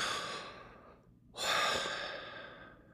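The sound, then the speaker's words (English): Slow breathing in and out, with two airy breaths separated by a short pause. The second breath is louder and longer, swelling then tapering off gently. “the name that is on our very breath every day as we breathe in and out, in and out”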